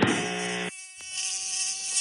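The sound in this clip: Tiny mosquitoes buzz in a thin, steady, high-pitched whine that runs through the whole clip, with lower tonal sounds underneath for part of the time.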